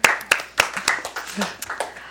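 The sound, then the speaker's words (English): Scattered clapping from a few people to thank a studio engineer: sharp, irregular claps of varying loudness, loosely spaced rather than a full crowd, with faint voice sounds in between. “Just give her a round of applause real quick.”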